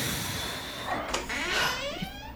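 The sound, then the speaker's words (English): A door opening in a video game gives a steady, hissing mechanical slide that runs through the whole moment, with no voices over it. “Wait, if you didn't make it, why did that door open?”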